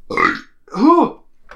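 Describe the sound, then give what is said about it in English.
A person lets out two loud, drawn-out burps, the second one rising and then falling in pitch, followed by a brief faint sound. “That was my favorite burp of 2018 right there.”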